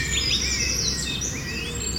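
Birds chirping outdoors: quick overlapping chirps and whistled calls run throughout, sitting above a steady low background hum.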